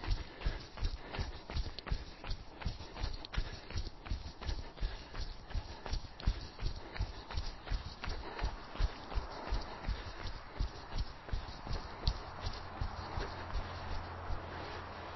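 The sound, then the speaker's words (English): Quick, even footfalls of someone jogging in place with high knees on the balls of the feet: many soft thuds in a steady, rapid rhythm that continue throughout at low volume. “getting the thighs up, so they're parallel with the ground, up on the tips of your toes, balls of your feet, and jog.”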